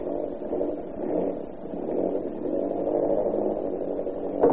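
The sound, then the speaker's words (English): An old propeller plane engine droning as it runs, a rough, even mid-pitched rumble holding steady throughout, with a brief louder burst near the end. “We spin this old propeller on up to the base. Ready? Contact. Contact.”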